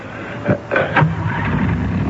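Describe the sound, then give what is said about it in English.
A car engine cranks and starts in order to back up: three short grinding bursts give way to a steady running rumble. “Better back my car up and get onto the shoulder.”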